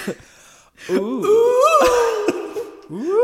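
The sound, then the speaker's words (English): A witch's alluring wailing call, a wavering, sung moan that swoops up and down in pitch in long looping glides, loud and sustained after a brief opening pause. “This alluring wail. I'm sorry, is that what an alluring wail is supposed to sound like?”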